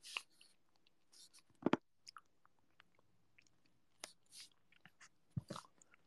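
Someone eating ice cream makes soft, quiet mouth sounds: faint wet smacks and clicks scattered through the stretch, with a few louder chewing bursts.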